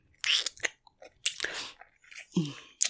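Someone biting into and chewing pizza, with a few sharp, crunchy bursts separated by quieter chewing, fairly faint, and a brief voiced sound near the end.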